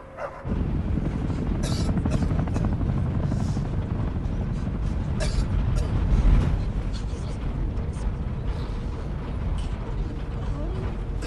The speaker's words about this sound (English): Low-flying helicopters pass the windows.